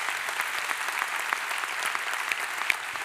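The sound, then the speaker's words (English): A church audience applauds to welcome its founding pastor, a steady dense wash of clapping hands that holds at an even level throughout. “So would you put your hands together and welcome him.”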